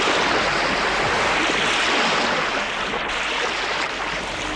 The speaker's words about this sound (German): Es rauschen Strom und Wasserfall.